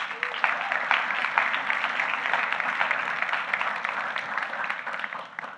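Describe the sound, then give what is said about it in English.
Audience applause welcoming a speaker to a meeting, dense steady clapping that continues throughout and eases slightly at the end. “So in a moment, I want you to welcome Chris, who together with his wife, Bea, leads this meeting, who's gonna come and share. Let's give it up for Chris.”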